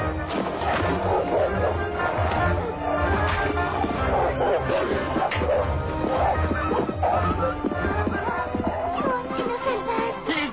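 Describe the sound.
A dog barks in a cartoon, its barks mixed into a dense, continuous bed of music and other sound effects that keeps a steady loudness throughout.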